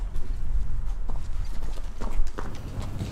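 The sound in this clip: Hooves of a tense, four-year-old horse clip-clop as it walks: many irregular, muffled steps over a constant low rumble.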